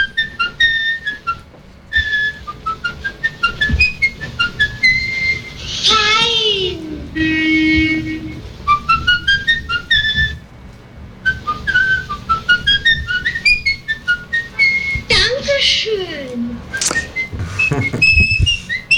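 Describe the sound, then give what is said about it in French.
A man whistles a tune in a train station, loud and clear, in many quick notes and longer held or sliding phrases, with brief pauses between runs of the melody. “Un type qui siffle la reprise de M le Maudit.”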